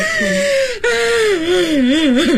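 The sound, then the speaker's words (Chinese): An old woman cries in a drawn-out, wailing voice that wavers up and down in pitch, with a brief catch of breath early on before the sobbing moan continues unbroken. “大娘，你别哭了，当心你自己的身体啊！”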